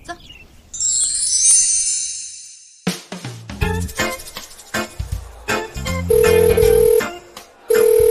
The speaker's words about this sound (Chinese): 哎呀，这师傅怎么不接我电话呀？哎呀，我接也不接，这急死我了